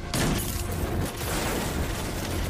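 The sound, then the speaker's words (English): Video game gunfire in a Destiny 2 Gambit match, a dense, continuous roar of shots and blasts with no clear gaps. “I just sniped some out of the way. I gotta reload. I only get 4 bullets in the mag. Dang it, they're all shooting me.”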